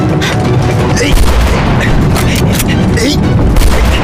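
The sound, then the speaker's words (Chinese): Rifle gunshots on a battlefield crack out rapidly and repeatedly, very loud and dense, over a constant heavy rumble of booming fire. “没有你这么打枪的，你这是浪费子弹，知道吗？”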